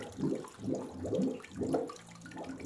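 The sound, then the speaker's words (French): Spring water from the Brignoles spring flowing gently beneath an old washing place: a soft, continuous trickling and gurgling with slight rhythmic surges, fairly quiet throughout. “La source de Brignoles arrive là-dessous. C'est là-dessous, gentiment, elle coule et c'était de l'eau claire potable dans le temps.”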